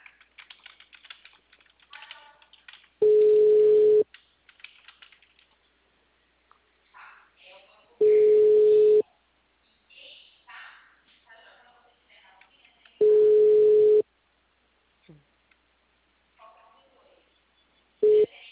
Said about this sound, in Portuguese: que eu tô ligando